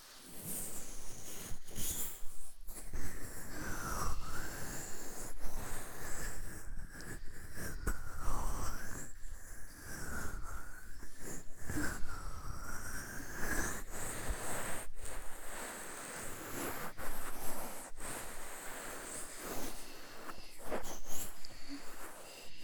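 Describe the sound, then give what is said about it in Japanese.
Whole-ear ASMR massage produces soft, close rubbing and brushing textures that continue without break, with gentle scratchy friction and muffled sweeps swelling and easing throughout, and no voice. “それでは左側も、まずはお耳のマッサージから始めますね。右と同じく、お耳全体をマッサージしていきます。”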